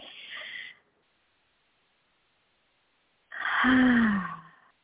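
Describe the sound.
Deep breathing during a guided meditation: a short breath at the start, a silent pause, then a long, fuller exhale with a soft voiced tone that falls in pitch as it fades.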